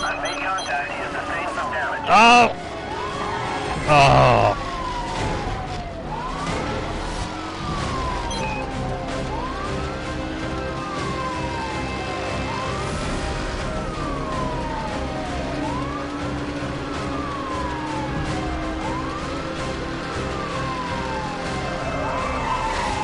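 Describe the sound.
A police car siren in a street-racing video game wails in repeated rising and falling sweeps that run steadily throughout, with a couple of louder bursts early on.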